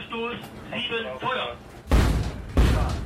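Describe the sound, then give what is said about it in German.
Two heavy booming blasts from an artillery gun firing salvos during a NATO exercise in the Baltic. Each is a sharp, deep thump with a short rumbling tail, and they come after a voice speaks. “Nach 2 Salven muss die Übung abgebrochen werden, um das Geschütz zu entladen.”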